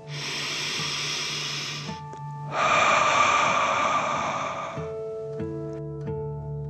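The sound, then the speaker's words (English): A deep breath, drawn in and then released during a calming meditation, forms two long, airy rushes separated by a short pause. Soft sustained tones hum steadily beneath. “Take a deep dragon breath in and out.”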